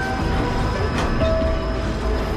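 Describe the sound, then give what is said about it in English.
Rumble of a train pulling away from a station and gliding into a tunnel, heard as a steady, loud low roar layered with a sustained metallic whine and hum, with no voices. “the train pulls away from the station and glides into a tunnel”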